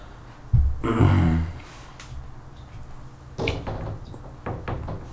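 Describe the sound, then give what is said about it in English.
A Steel Reserve beer can being moved by a wet hand: a scraping clunk and slosh, then a few lighter knocks and taps. “My hand's wet from moving the steel reserve can.”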